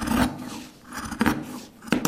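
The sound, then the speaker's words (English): Denim canvas being cut by hand with a large pair of scissors in a small workshop in Nîmes, heard as a few crisp, rasping snips separated by short pauses. “So this is where I cut the canvas, the denim, by hand. All is cut by hand.”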